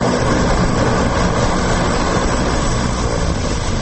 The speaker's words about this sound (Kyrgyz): Жыйырма жылдан бери иштебей турган Нарын аэропортуна бүгүн кайрадан Саап 340 учагы келип кондо.